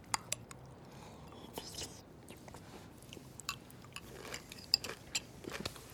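Chewing chili with crunchy corn chips: faint, irregular crisp crunches and clicks come one after another at low volume.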